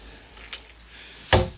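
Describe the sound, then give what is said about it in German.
Rainwater in a garbage bin sloshes once in a short, bright splash, preceded by a faint earlier drip against a quiet background. “doch hört selbst. Mal sehen, wie viel Wasser jetzt in dieser tollen Mülltonne ist.”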